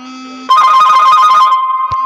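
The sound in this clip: A mobile phone rings loudly with a bright, repeating electronic ringtone carried over a sustained tone.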